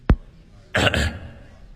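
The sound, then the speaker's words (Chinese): Throat clearing by a college dean at a lectern before speaking into a microphone: a short, rough two-part rasp. A single sharp click comes just before it, and quiet background follows. “院长先清了清嗓子”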